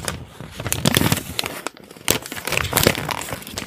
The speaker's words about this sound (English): I gave you something that I hope you will like. Well, let me open it here.